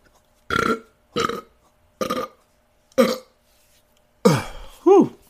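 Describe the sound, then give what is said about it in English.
Burping: several short, croaky burps in a row at an uneven rhythm, followed by a brief voiced exclamation with a sliding pitch. “Sorry about the burp. I'm kind of not sorry, though, because I keep doing it, right?”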